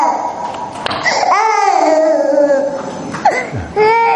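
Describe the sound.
A baby cries in loud, drawn-out wails: one long harmonic cry, a brief break, then a second cry starting near the end.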